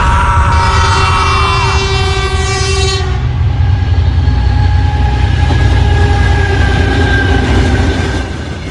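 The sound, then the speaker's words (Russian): A train rumbles loudly on its rails as it enters a tunnel. A sustained horn blares over the first few seconds, then cuts off, leaving a dense, steady roar of wheels and rail noise that eases slightly at the very end. “Поезд въехал в тоннель, вагон погрузился в непроглядную темноту, крик ужаса утонул в грохоте рельсов.”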